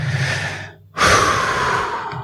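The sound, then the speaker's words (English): A person takes a breath, with airy breathing that dips into a brief pause near one second, then a strong, rushing inhale that carries on to the end. “Let me take a breath here.”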